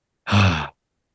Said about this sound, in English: Holding the breath for 3, 2, 1, exhale.